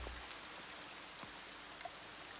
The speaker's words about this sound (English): It's nightfall. It's raining.